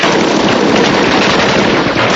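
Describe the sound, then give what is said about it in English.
Dense gunfire from a gun in a tower, a loud, unbroken roar of rapid shots with no clear gaps between them throughout. “There's a gun in that tower”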